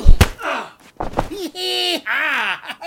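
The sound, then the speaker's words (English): Punch landing in a fight, heard as a couple of heavy thumps near the start, followed by groaning and exclaiming voices. “Dang, did y'all see that? My boy Jake sure does pack a wallop. Oh, did you ever see someone throw a punch like that?”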